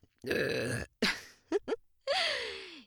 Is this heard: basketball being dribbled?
no